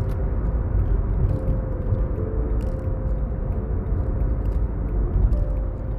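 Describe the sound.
Car engine and road rumble as a car accelerates hard onto a highway exit, heard as a steady, loud low drone with a faint hum running through it and no voices.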